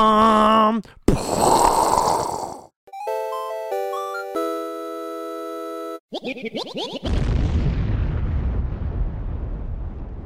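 A short intro jingle with explosion effects: bursts of noise and bouncy, synthetic tonal notes, then a chaotic passage that ends in a long, loud, rumbling blast.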